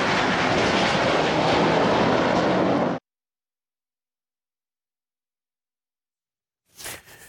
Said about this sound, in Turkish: savaş uçağıyla akrobasi gösterisi sergileyen Solotürk, vatandaşların beğenisini topladı.